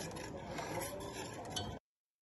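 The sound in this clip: A whisk stirs a thickening milk sauce with spices for macaroni and cheese in a pot. The scraping and swishing is steady and continuous, then stops abruptly.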